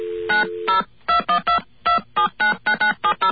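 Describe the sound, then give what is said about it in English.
Touch-tone telephone dialing of 0 and a New York City code for operator assistance. A long opening tone leads into a quick, evenly spaced run of many short, loud beeps. “we're going to call an operator now. Yeah, I think when you're getting operator assistance into New York City, you have to dial 0 plus”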